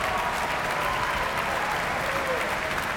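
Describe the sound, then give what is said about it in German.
Dense, steady applause from a full theatre audience and the orchestra at the Prinzregententheater in Munich, many hands clapping at an even, lively level throughout. “Das vollbesetzte Prinzregententheater in München ist hörbar angetan. Und hier applaudiert ebenfalls das Orchester.”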